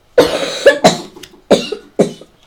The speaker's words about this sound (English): that cough of yours is really getting worse